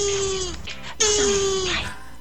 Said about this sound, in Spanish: Me da risa el sonido de la tortuga.